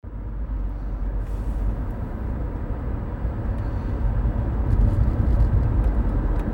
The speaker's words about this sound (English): Driving through the hills of Tennessee right now